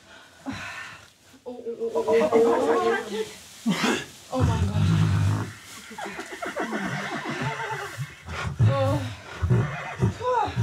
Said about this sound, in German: Das Fohlen macht sofort einen agilen Eindruck. Dagegen scheint die Stute schwer mitgenommen.